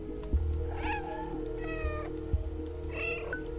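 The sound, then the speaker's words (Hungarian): A cat meows three times in drawn-out tonal calls spaced about a second apart, over a steady low electrical hum. “És nyávogtatom is neked a cicát természetesen, mert megérdemled.”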